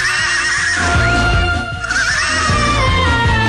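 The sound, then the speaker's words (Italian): A horse gives a wavering, high whinny midway through loud rock music with a steady, pounding drumbeat. “il nitrito più rock di Europa”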